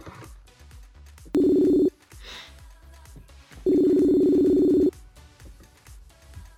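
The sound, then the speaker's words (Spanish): Touch tones sound as a telephone number is dialed. There are two sustained electronic beeps, the second longer than the first, with faint background noise between them. “Vamos a marcarle, esperemos que, nos conteste.”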